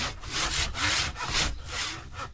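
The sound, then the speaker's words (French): Wood being shaped with a file and rasp in a travelling woodworking workshop: a run of gritty, abrasive back-and-forth strokes with brief gaps between them, steady and moderately loud, with no voices. “Passe la lime, la râpe. Tu dégrossis là, là, et après à la ponceuse, enfin main”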